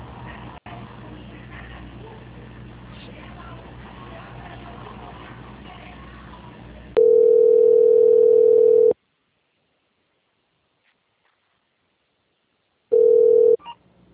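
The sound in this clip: Telephone line tones as a call is transferred to a quality department: after a stretch of muffled line noise, a long flat steady beep sounds, a pause of silence follows, then a second, shorter beep of the same pitch.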